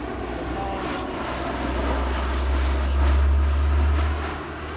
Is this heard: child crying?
no